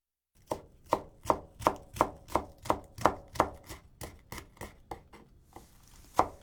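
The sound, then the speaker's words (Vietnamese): Knife chopping green onions into long pieces on a board: many crisp, evenly spaced cuts in a steady rhythm, alone, then a short pause before one last louder chop. “Tiếp đó, chúng ta sắc hành thành từng đoạn dài.”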